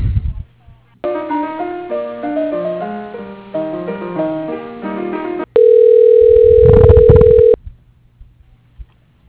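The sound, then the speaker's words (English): Phone line sounds during a call transfer to voicemail: a short melodic electronic hold jingle, then one steady, loud ring tone lasting about two seconds, followed by near silence with a few faint clicks. “So it's going to be a brief hold where I transfer you over, okay?”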